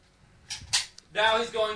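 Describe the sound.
A toy gun fires foam bullets tipped with thumbtacks, giving a few quick, sharp pops in close succession. A voice speaks right after.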